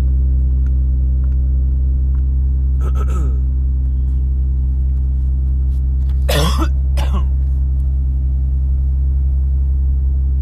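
Coughing from a tickle in the throat: a brief cough, then a louder burst of coughs, over a constant low engine rumble like a car's.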